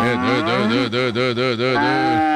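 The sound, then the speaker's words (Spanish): A cow moos loudly while being milked on a farm. It is one long, wavering low call that lasts nearly the whole clip, with slight dips in loudness, and no other sound is heard. “A mí no me vas a poner a ordeñar a Ramona porque yo no soy capaz.”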